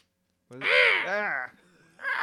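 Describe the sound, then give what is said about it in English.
A person imitates a seagull call: loud, harsh, nasal squawks, the second one arching up and then down in pitch, followed after a short pause by another cry. “Interesting seagull sound. It's a human seagull sound.”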